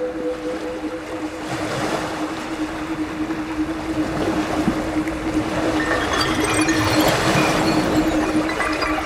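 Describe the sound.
Ocean waves roll in as a steady, continuous wash of surf noise that grows slightly louder through the second half, with a faint steady hum running underneath.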